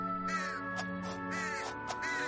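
Crows cawing harshly, several rough, scratchy calls in quick succession over a steady, sustained musical drone that runs beneath them throughout.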